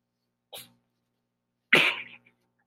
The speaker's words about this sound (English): sneezed and the guinea pig like shot up and got freaked out.